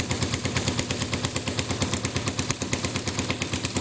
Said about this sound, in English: So why don't we fire away? And you can see the laser hitting that target.